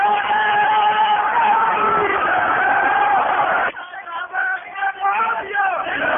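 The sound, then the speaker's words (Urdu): A crowd at a religious gathering chants a slogan, a loud sustained roar of many voices together. Partway through it breaks into a few ragged separate shouts, then swells again. “دوستو جب ایک بات کر لینے دو، نعرہ زیادہ لمبا نہ کیا کریں، گفتگو کا تسلسل ٹوٹ جاتا ہے۔”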